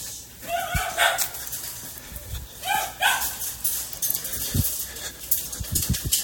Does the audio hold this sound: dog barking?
yes